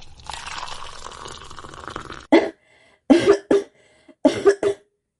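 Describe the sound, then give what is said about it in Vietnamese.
Several short, dry coughs from a young man feigning coming round after being fed ginger soup, sharp separate bursts with silent gaps between them. “lập tức giả vờ tỉnh lại ho khan”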